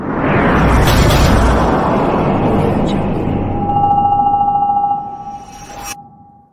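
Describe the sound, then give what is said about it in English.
Rocket launch sound effect: a loud, dense roar holds steady for about five seconds, then thins and fades, while a thin, steady high tone emerges near the end and a brief burst closes it. “Our little rocket. It's time for the rocket, right? Time to lift us up into the finals.”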